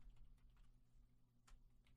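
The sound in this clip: Faint typing on a computer keyboard: a few scattered light key clicks over a steady low hum, with no one speaking.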